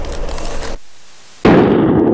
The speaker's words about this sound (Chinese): 自热锅虽然方便，但使用不当会发生爆炸。